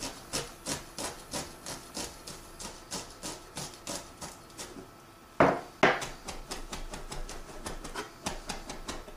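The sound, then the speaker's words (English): A knife chops through a bunched handful of lemongrass, making many even, rhythmic thuds on a board. A brief pause follows, then two louder cuts, and the quick chopping resumes. “I'm just gonna hold this, scrunch it all together, and chop.”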